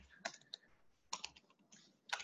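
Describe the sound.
Typing on a computer keyboard: a few short clusters of faint, crisp key clicks separated by brief pauses, with no talk.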